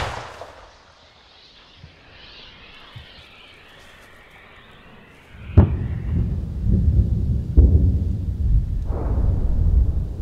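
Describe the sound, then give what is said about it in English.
Gunfire from the Ukrainian counteroffensive near Orikhiv in southern Ukraine: a faint, quiet stretch gives way to a sudden loud blast, then a low rolling rumble punctuated by a few further heavy booms. “In the southern counteroffensive near Orikhiv, Ukraine has the initiative. Yet, they have to shoot their way forwards, round by round.”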